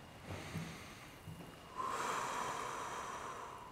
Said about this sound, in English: Take a deep breath in through your nose and exhale through your mouth.